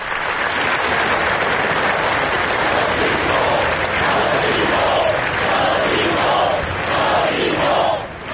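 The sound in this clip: A large crowd at a rally in Barcelona after an attack applauds and shouts in a dense, continuous roar of clapping. Chanted voices swell through the later part, and it stays loud throughout.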